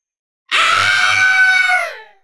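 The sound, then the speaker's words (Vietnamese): A long, shrill, ferocious monster scream: one sustained cry of about a second and a half with dense, bright harmonics. It is loud and alone, and its pitch sags slightly as it trails off. “Trong miệng Phệ Kim Tiên Thái Ức Cảnh phát ra tiếng thét dài thê lương, hung ác tới cực điểm.”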